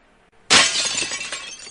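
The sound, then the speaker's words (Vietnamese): A wine bottle and glasses smash as a heavy body crashes onto a table in a private drinking room, a sudden loud shattering burst followed by a bright, scattering tinkle of glass that slowly fades. “Thân hình Đường Bình nặng nề đập lên trên bàn, nện chai rượu cùng ly tách đến dập nát”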